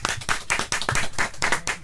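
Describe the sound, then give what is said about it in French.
Loud, steady hand clapping from an audience at a live morning radio studio performance of a funk-pop cover song, with many quick, dense claps running through the whole stretch. “Applaudissements.”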